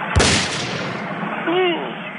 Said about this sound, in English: just go ahead and hit level two. Look at this. It's Grandpa's shotgun.